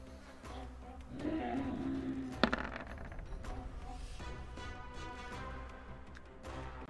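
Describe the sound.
Dice are rolled for initiative in a tabletop role-playing game, with a few quiet clicks and a sharper clatter as they land.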